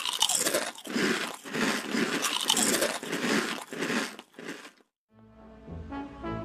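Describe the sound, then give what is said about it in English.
Crunching of plain potato chips: many loud, crisp bites and chews follow one another in a steady rhythm for several seconds, then stop abruptly, and quiet tonal music starts after a short silence. “For now, let's split a bag of plain chips and call it a day.”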